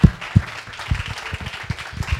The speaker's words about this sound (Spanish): un aplauso igual, aunque no esté.